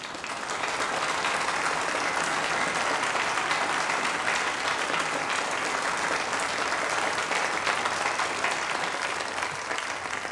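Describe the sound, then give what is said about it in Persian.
Sustained audience applause honoring a police department team at a formal ceremony: a dense, unbroken roar of many hands clapping that stays steady and loud for about ten seconds. “لطفا تشویقشون کنید.”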